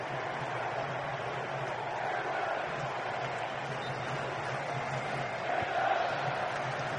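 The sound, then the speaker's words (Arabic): Steady roar of English football fans cheering in a stadium in New Jersey during an England versus Panama match, a dense, unbroken crowd wash that swells slightly toward the end. “تشجيعات الجماهير الإنجليزية هنا في نيو جيرسي.”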